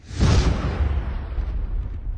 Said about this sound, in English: A massive explosion shook the walls of the building I was sitting in, right in the middle of Combat Outpost, or COP, Falcon.